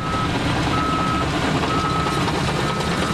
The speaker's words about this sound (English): Outside the wastewater treatment plant in Waukesha, a construction worker using a bulldozer is moving gravel.